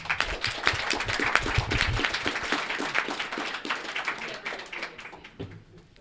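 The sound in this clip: Audience applause at a live financial independence camp gathering: dense, sustained clapping from many hands that tapers off toward the end.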